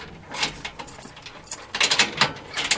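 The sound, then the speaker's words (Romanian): A prison cell door is unlocked with a run of metallic clacks, scrapes and ratcheting clicks. The rattling is irregular and grows busier and louder toward the end. “Descuie temnița.”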